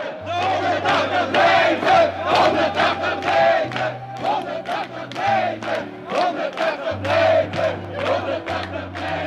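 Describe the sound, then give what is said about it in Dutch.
Joyful crowd of Moroccan activists in 1978 cheering and chanting after winning residence permits, loud rhythmic shouted bursts repeating steadily over a low sustained tone. “Dit zorgde voor grote vreugde onder de actievoerders, zoals te horen in dit fragment.”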